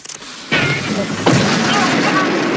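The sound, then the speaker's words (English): Two explosions in quick succession, each a sudden loud burst followed by a sustained roaring rumble, the second hitting less than a second after the first. “But there's a flash of white light, and he explodes, leaving behind a charred remnant of his former self. A moment later, and he explodes again.”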